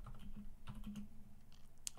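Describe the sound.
Faint typing on a computer keyboard, with a few soft, irregular key clicks over a low, steady hum.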